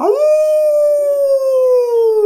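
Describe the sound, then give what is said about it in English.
A human voice imitates a wolf howl with one long, smooth, sustained tone. The pitch rises quickly at the start, then sags slowly downward over about two seconds. The howl is loud and heard alone. “Wolves like to sit under the moon and howl. They go,”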